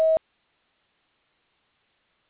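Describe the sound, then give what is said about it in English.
A voicemail tone before recording a message: one very short, steady pitched beep alone at the start, followed by silence. “Please leave your message at the tone.”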